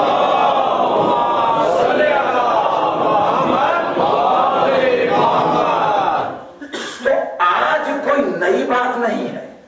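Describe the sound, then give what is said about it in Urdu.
A large crowd chants salawat in unison in response to a call, loud and sustained for about six seconds before breaking into shorter, uneven bursts of voices. “نعرہ سلوات”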